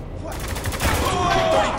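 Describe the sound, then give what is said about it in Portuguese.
A video game plays a rapid volley of gunfire as soldiers shoot at civilians, with dense overlapping shots that form a loud burst. “Então você se sente motivado a atirar contra os próprios americanos, porque eles estão atirando em todo mundo que é inocente e civil lá.”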